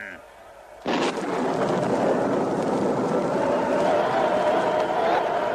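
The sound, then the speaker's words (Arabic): The Tower of Babel collapses onto the crowd below with a sudden loud crash after a quiet first second. A heavy, sustained rumbling roar follows and carries on to the end without easing. “مولاي، ما هذا الصوت الهائل؟ البرج، برج بابل يا مولاي، انظر إنه ينهار، ينهار على الناس.”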